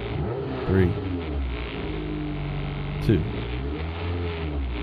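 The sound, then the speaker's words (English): Droning engine roar of a drag racing car accelerating, loud and sustained. Two short surging rises in tone break the steady growl. “This is drag racing right here.”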